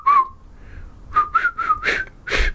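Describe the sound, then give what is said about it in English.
A person whistles a short tune: one breathy, fairly high note, then after a pause a quick run of several short notes at a similar pitch, somewhat shaky and uneven in loudness. “that's sadly as well as I can whistle”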